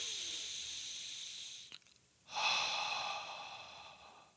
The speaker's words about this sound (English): In through your nose, out through your mouth.